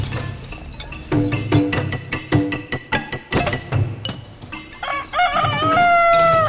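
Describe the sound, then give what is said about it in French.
Chickens cluck busily in a farm henhouse, many short, loud calls overlapping in a quick, uneven rhythm, ending with a drawn-out crow. “Vous avez devant vous donc le poulailler”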